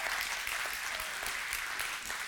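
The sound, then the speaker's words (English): Church audience applauding, a dense, continuous wash of many hands clapping at a steady, fairly soft level throughout. “Yeah, you better clap”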